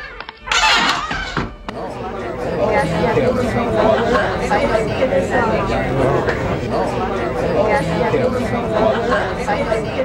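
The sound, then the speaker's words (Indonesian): Commotion of a crowd gathered in a street: many voices chatter and shout over one another in a loud, continuous din, opening with a brief sharp noisy burst. “Ada keributan di seberang jalan. Apa itu? Entahlah, orang banyak mengerumuni sesuatu dekat tembok itu.”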